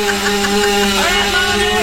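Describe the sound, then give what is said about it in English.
A voice imitates a 250cc dirt bike being kick-started, holding a steady buzzing, engine-like drone for the whole stretch without a break and with no spoken words. “Hold on, let me kick start it here. I gotta get it. Hold on, I gotta get it started. There we go.”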